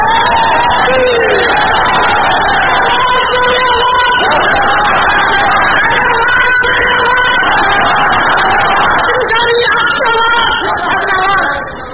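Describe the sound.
A loud crowd at a religious-political rally shouting slogans for an Islamic system, massed voices chanting and cheering continuously, with whoops rising out of the roar.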